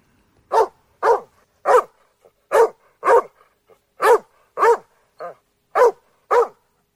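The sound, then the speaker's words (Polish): An Irish setter barks repeatedly, with many sharp, loud barks in a steady rhythm and short pauses between them, and no other sounds. “Setter irlandzki.”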